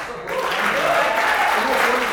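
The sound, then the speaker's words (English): An audience cheering and applauding: dense clapping that swells in after a brief quiet start and holds steady, with cheering voices mixed through it. “So can we give a cheer for them in”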